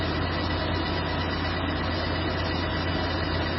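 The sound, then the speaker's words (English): A car engine runs steadily while the driver shifts gears, giving a continuous low rumble with a broad mechanical roar above it. Loudness holds even throughout, with no clear rev surges. “I'm shifting up and down, like the engine speed up, I hear that sound.”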